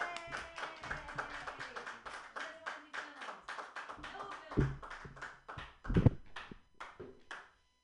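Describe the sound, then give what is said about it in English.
Clapping from an open-mic comedy audience welcoming the next comedian to the stage: many quick, uneven claps throughout, with a few louder, heavier hits near the end. “Put your hands together for Rachel Pinson.”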